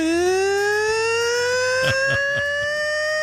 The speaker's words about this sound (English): The old siren was the best. That when they would score, all you'd hear was this.